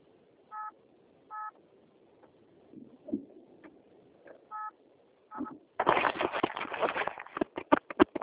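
Telephone keypad dialing tones sound while a call is redialed: four short, clear two-tone beeps come in pairs over a faint hiss, then loud rustling and crackling handling noise takes over.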